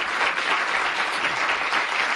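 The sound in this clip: Dense, even applause from an audience welcoming a speaker at an event against the death penalty. It stays steady throughout with no voices over it.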